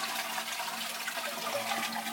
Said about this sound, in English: Well, listen how slow that's filling. That's going to take over an hour.